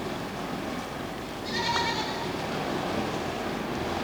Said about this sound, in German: Was war denn das? Das müssen Ziegen sein.